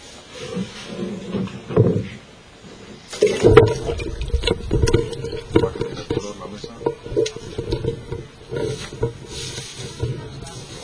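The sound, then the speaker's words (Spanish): Water pours into a bucket of seeds, rinsing them during seed extraction. A quieter opening with some handling gives way to a rushing, gurgling stream of water that continues to the end. “se le echa agua, ya lo cojo, lo pongo así un poco de lado para que se vayan al canto”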